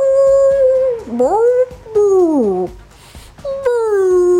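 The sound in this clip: A voice imitates a lion bellowing during a tabletop role-playing game. It gives a few long, loud, howl-like cries with sweeping pitch, first dipping and rising, then sliding downward, with a short pause before the last cry.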